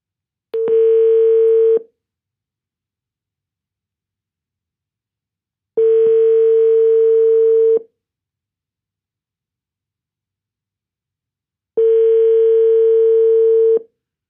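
A telephone ringing tone sounds while someone places a call. Three long, steady, mid-pitched tone bursts of about two seconds each ring alone, separated by roughly four seconds of silence.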